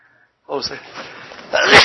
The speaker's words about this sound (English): I had to sneeze.